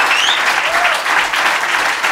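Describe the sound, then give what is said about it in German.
Audience applause, loud and dense, with many hands clapping in a steady, unbroken wash from start to finish. “Best Applaus, gib Gas!”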